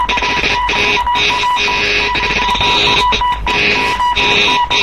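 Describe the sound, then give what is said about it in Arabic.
A telephone rings in a radio drama, sounding as a loud electronic trill in regular repeated bursts separated by short gaps, with no voices over it. “يا فندم حيدر باشا على التليفون وعايز نوصله بالسواري.”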